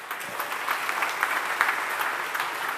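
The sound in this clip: An audience claps in steady, dense applause, a bright patter of many hands at moderate loudness with no speech over it.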